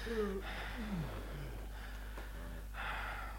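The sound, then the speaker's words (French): People falling asleep breathe slowly and unevenly, with soft gasping intakes and a few falling, whistly sighs over a low steady hum. “Le sommeil nous emportait l'un après l'autre, mêlant les respirations lentes ou saccadées, des soupirs d'enfants”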